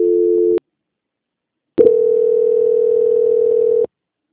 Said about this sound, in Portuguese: Não desliga, não. Transferência.